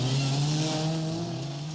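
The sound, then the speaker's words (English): Engine drone of a Morris Mini Minor being driven: a steady, loud low hum with broad road noise that eases slightly toward the end. “Here is the revolutionary Morris Mini Miner. See how easy the Morris Mini Miner is to park.”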